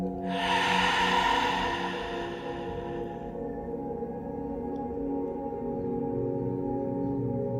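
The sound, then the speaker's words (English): A deep breath pushed out through an open mouth during a breathing exercise, a soft airy rush lasting about three seconds over steady background music. “Now deep breath in. Open your mouth, breathe out.”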